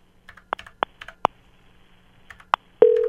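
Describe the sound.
A telephone call failing to connect: a scattered run of short keypad beeps and clicks, then a loud, steady electronic tone sounding alone at the end.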